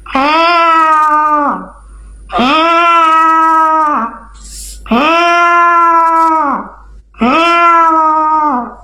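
A person imitates a cat sitting indoors, giving four loud, long, drawn-out wailing meows. Each meow holds a fairly steady pitch, and brief pauses separate them.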